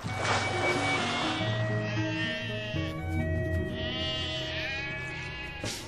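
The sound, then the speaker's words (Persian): Many sheep bleat loudly in overlapping, wavering cries. The calls follow one another continuously with no clear gap, forming a dense chorus of bleats that fades slightly toward the end. “وای چقدر گوسفند.”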